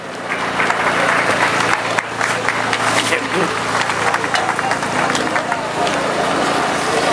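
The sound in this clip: A crowd at an Al-Quds Day rally applauds to welcome a speaker. The clapping is dense, steady and loud, with crowd noise mixed in throughout.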